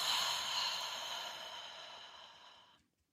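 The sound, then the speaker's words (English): A deep, slow breath during a guided tapping relaxation exercise, heard alone as a soft, airy rush of air that gradually fades out. “Just taking a deep breath in here and letting go.”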